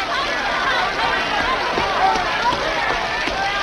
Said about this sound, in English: He runs through the pouring rain